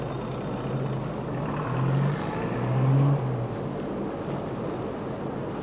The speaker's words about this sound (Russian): Машина выезжает на трассу.